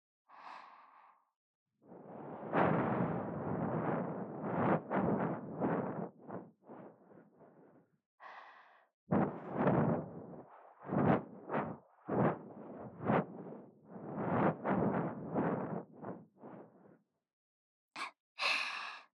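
Breath is blown gently into the ear as a long run of soft, airy whooshing puffs, some drawn out and others short and pulsing. It stays fairly faint, with brief breathy sounds at the start and end and no speech.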